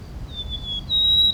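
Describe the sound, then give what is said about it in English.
Two long, thin, high whistled notes from a white-crowned sparrow, the second slightly higher and steadier, sung alone over a soft low rumble. “White crown sparrow, okay.”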